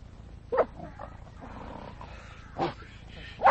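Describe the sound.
A few short vocal bursts from Pompey, a dog on a leather leash, rise clearly above a low steady background, with the loudest near the end.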